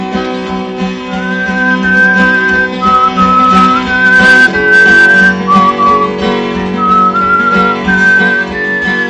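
A folk musician whistles a patriotic song melody, held notes stepping up and down in pitch, loud and clear over a steady sustained tonal background.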